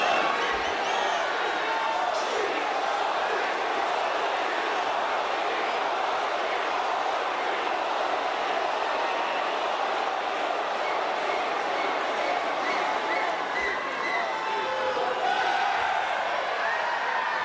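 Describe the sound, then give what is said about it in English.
A packed arena crowd at Sydney's Olympic Park roars and cheers in welcome for Indian Prime Minister Narendra Modi, a dense, steady wall of crowd noise that holds throughout without a break. “the last time Prime Minister Modi visited in 2023, they packed an arena in Sydney's Olympic Park to give him a rock star welcome. Let's have a listen.”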